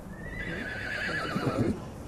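A horse neighs in one faint, drawn-out whinny whose wavering pitch slides downward, trailing off into a few low, rough pulses.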